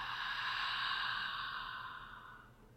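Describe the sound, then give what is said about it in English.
Gentle breathing in and out during a guided heart-centred relaxation: one long, soft, airy breath that holds steady, then gradually fades. No voices. “gentle breath in and out of your heart center. Gently breathing in and out.”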